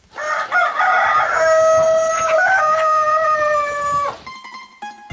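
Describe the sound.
A rooster on a poultry farm in a small Polish village gives one long, loud crow lasting about four seconds, followed by a few short hen clucks.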